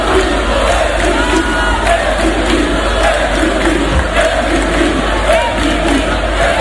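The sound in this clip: A crowd of fans cheers and shouts at an all-night celebration in a fan zone in A Coruña after their team's late arrival, a loud, dense, continuous roar of voices that holds steady throughout.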